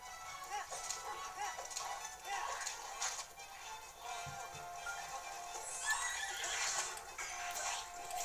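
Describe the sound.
A horse neighs in a video game. Loud whinnies rise over busy game sound, with hooves clopping along beneath them.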